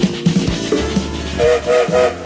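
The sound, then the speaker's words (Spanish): A train departs as a sound effect: a low rolling rumble runs throughout, and three short, tonal whistle or horn blasts sound in steady succession near the end, loud and with no voices. “Ya sale el tren, ya está en movimiento.”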